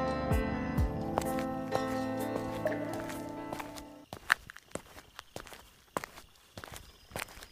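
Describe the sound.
Footsteps descend stairs on the way out of a station. A steady tonal hum fills the first half, then cuts off, leaving a quick series of sharp, distinct steps with scuffs between them.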